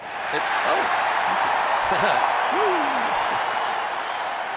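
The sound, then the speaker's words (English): Applause from an enthusiastic studio audience forms a dense, steady wash of clapping that holds at an even level throughout, with faint voices rising briefly in the mix. “Man, that's an enthusiastic studio audience there tonight. Thanks a lot, folks.”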